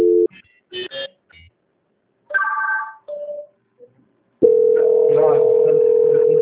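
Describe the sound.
Telephone line tones during a call transfer: several short beeps and tone bursts, then a steady continuous tone that holds to the end.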